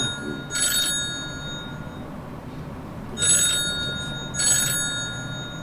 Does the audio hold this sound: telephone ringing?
yes